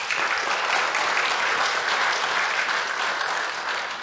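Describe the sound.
Audience applause welcomes a speaker at a ministry gathering, a dense, continuous clapping that holds steady and eases slightly at the end.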